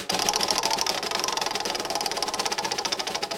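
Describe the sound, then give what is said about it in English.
A spinning prize wheel sound effect: rapid, regular ticking clicks run fast and continuously throughout, like a wheel's pointer striking pegs as it spins. “Ooh, and I can add in a spinny wheel sound effect too.”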